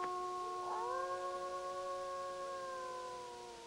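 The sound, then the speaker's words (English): A wolf howls in one long, faint, tonal note that lifts slightly early, holds steady and clear, then gradually fades at the end. “there's a wolf howling!”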